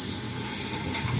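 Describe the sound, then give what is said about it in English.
An egg sizzles on a griddle for danbing, a Taiwanese egg crepe, giving a steady, even hiss with one small tick partway through. “A lot of customers order danbing. Why don't I make you one? First, an egg. Then, wheat flour”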